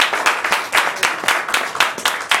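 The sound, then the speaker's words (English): Rhythmic hand clapping from a church audience giving praise, many hands striking together in a steady, even beat, loud and without voices. “I want to give my hand clap and praise one more time.”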